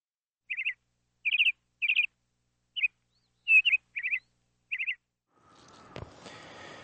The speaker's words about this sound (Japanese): 鳥の声聞こえますかね。